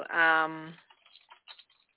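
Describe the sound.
Typing on a computer keyboard: after a brief spoken voice, a few soft, quick key taps click faintly and irregularly.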